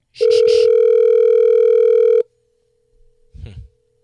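A telephone dial tone sounds while someone is being called: one loud, steady pitch holds for about two seconds, then cuts off into near silence broken by a faint brief rustle.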